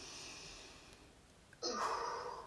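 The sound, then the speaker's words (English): A forceful exhale in a breathing exercise: after a stretch of faint breath noise, a sudden strong rush of air pushed out hard lasts nearly a second. “Okay, so you're gonna like breathe in and push it out really hard. Okay, one more time.”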